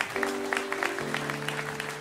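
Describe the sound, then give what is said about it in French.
An audience applauds absent performers, a steady patter of many hands clapping with a low sustained tone running underneath. “Donc vous pouvez les applaudir.”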